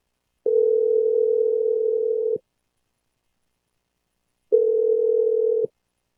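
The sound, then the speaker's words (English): A telephone tone sounds as two steady, single-pitched beeps separated by a long silence. The first lasts about two seconds and the second is shorter, both loud and even in volume. “So let's lock it in. I'm going to dial it right now. Here we go.”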